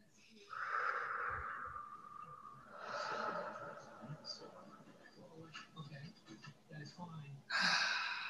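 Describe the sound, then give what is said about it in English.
Deep breaths are taken together in a guided breathing exercise: airy, slightly wheezy inhales and long exhales, fairly faint and repeated a few times. “let's take two nice deep breaths together here, please”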